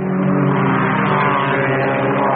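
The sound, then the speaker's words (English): Race car engines rev during a 24-hour endurance motor race at Le Mans, a loud, sustained and steady mechanical drone with a constant pitch and no voices. “Listen to the sound of Le Mans.”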